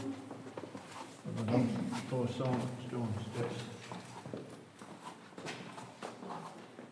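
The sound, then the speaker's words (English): Footsteps coming down spiral stairs into a church basement: a steady run of hard knocks and scuffs, with people talking over them. “Now we're here, as you can see, down in the basement. We have come down the spiral stairs there”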